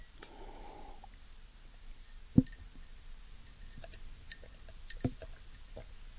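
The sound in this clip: A person sipping a drink of water: faint, quiet mouth sounds and soft breaths, with two sharper gulping clicks a few seconds apart and no talking.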